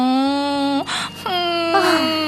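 A boy cries in a long, drawn-out wailing whimper. Two sustained voiced sobs are split by a breathy gasp, and the pitch sags at the ends of the phrases.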